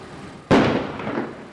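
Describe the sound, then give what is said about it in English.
A single sharp blast from a bomb squad's controlled detonation of a booby-trapped explosive device cracks out suddenly, then trails into a broad, slowly fading rumble. “Earlier today, a bomb squad carried out a controlled detonation on one of those devices. Fire the hole!”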